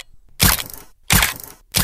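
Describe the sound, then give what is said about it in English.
Spider-Man's web-shooter sound effect: two loud, hissing bursts of noise, each with a sharp onset that tapers over about half a second, separated by brief silence, then the start of a third. “That is the sound of Spider-Man's web shooter.”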